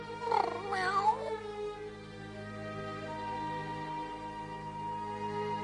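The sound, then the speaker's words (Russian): Cat meowing and caterwauling: a wavering, wailing cry in the first second, then a steady, droning tonal background continuing alone for several seconds. “Что здесь за шум? Бедный котик.”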